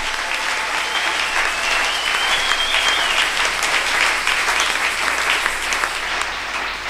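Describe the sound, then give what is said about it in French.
A church audience applauds, dense and steady clapping holding at an even loudness from start to finish. “Est-ce que vous pouvez acclamer d'abord pour vous-même? Unaweza kujichapia peke yako kofi.”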